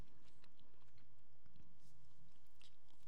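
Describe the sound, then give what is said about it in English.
Someone chews a grape-flavoured Pop-Tart, making faint, soft crunching bites scattered through a quiet few seconds, with no talking. “cheers, Pop Tart. Cheers. smells like grape.”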